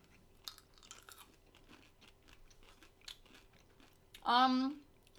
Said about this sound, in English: So this week we have M&M Cookies and Scream, which is just Cookies and Cream M&Ms, which is going to be awesome, so I'm just going to eat it.